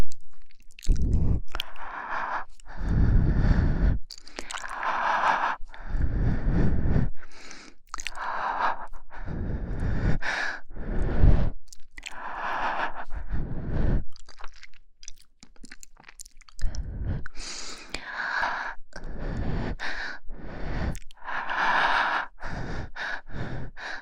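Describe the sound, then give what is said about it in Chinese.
Air is blown gently into the listener's ear in many soft, breathy puffs, each a short burst separated by brief pauses, with no talking. “让我给您吹吹，我给您吹吹主人。现在就给主人您吹。”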